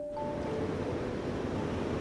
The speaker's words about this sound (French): réservoir de Montsouris, précisément dans la salle où les aqueducs se déverse dans le réservoir. Vous entendez et vous voyez l'ensemble de ce faramineux débit d'eau